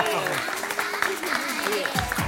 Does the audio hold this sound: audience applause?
yes